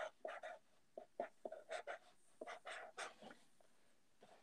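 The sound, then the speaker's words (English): Pen scribbling while notes and matchups are written down: many short, quick scratching strokes in an uneven rhythm, faint and without talk. “I'm just writing down the playing games. I'm writing down all the matchups, then we'll get to the Eastern Conference.”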